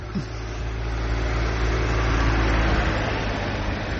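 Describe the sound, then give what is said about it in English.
A car rumbles outside on the street, a steady low engine drone that swells slightly and eases off, without voices. “as you can see, as you can hear the car, I'm outside, so I'm just walking right now and try to do this episode.”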